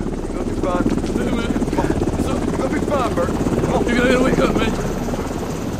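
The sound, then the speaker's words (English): A helicopter's rotors beat in a dense, steady thumping pulse beside a stretcher rescue of injured people, with a few voices breaking through and the roar swelling slightly near the end. “A helicopter arrives, then hovers, and starts its slow descent.”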